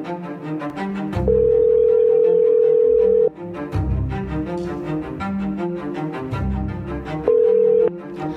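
A telephone calling tone sounds while a call is placed to a guest. One long steady tone is followed later by a shorter one, both over rhythmic background music.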